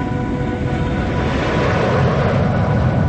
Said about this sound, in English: A jet is flying in a cloudy sky.